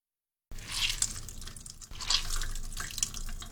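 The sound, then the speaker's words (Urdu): Cold tap water runs as spinach is rinsed, a steady hissing stream with splashes and drips, starting after a short silence, briefly dipping midway, then continuing loud and even. “پالک کو ٹھنڈا کرنے کے لیے کئی بار پانی سے نتھاریں، اور اس کے بعد اضافی پانی نکالنے کے لیے اسے دبا کر اچھی طرح نچوڑیے۔”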